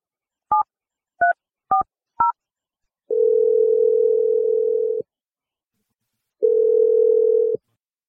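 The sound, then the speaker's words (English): Telephone dialing: four short keypad tones in quick succession, then two long, steady ringing tones separated by a pause, all clean and alone. “And I'm going to dial the number right now”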